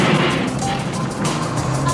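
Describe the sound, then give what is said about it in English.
A car engine hums steadily at a low pitch as the driver, a learner taking a lesson, shifts a manual transmission into second gear, with a continuous rumble and no distinct break. “Let's shift to second gear, okay? Now, you're doing great. Ready? Clutch all the way in. Give some gas. Ready? Okay, shift.”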